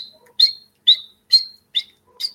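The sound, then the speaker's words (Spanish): Five sharp, high, metallic chirps from a Quinde Herrero hummingbird, its call likened to a blacksmith hammering, evenly spaced and ringing clearly against silence. “aquí en el colibrí también se puede utilizar el nombre de Quinde Herrero, porque el sonido es como el accionar de una persona que se dedica a la herrería.”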